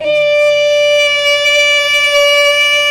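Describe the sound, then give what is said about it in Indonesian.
An imsak siren marking the start of the daily fast sounds a loud, steady, sustained wail with strong harmonics, holding a level pitch throughout with no voices. “Lalu kemudian sampailah masanya terdengar sirine.”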